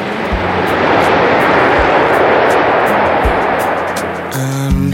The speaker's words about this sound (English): an aircraft that has enthralled its many admirers for so long taxis home one last time